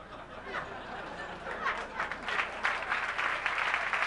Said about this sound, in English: Delayed clap break.